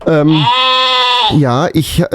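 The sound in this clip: A Heidschnucke sheep bleats loudly in one long, wavering, quavering call, followed by a few shorter, rougher bleats.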